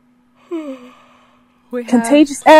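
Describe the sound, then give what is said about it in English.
A person yawns aloud, a breathy, drawn-out voiced groan with a falling tone and a fairly loud, long stretch near the end. “Excuse me, I have to yawn.”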